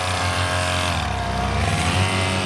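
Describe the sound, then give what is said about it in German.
A Vespa scooter engine revs at a Vespa and Lambretta club summer festival, a steady buzzing drone with rich harmonics whose pitch dips briefly and then climbs back. “So wird es heute nämlich ganz oft klingen im Ländle. Alle echten Vespa-Fans treffen sich in Koblach-Straßenhäuser zum Sommerfest vom Vespa- und Lambretta-Club.”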